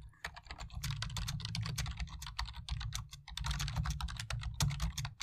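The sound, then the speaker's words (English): Someone types a question to Google on a computer keyboard, a fast, continuous run of many crisp keystrokes with brief pauses, heard alone without talk. “I'm going to actually type it out exactly as a verbatim for what I just said.”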